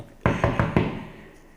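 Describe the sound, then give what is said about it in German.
Knocking on a door: four firm, hollow knocks in an even, quick rhythm, each thudding loudly, with the sound lingering and fading away after the last knock. “Und jetzt klopfe ich an.”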